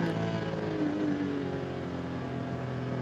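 Race car engine accelerating uphill on the Nürburgring during an ADAC Ruhr-Pokal endurance race, a loud, steady, dense drone with strong harmonics that rises slightly in pitch midway, then holds.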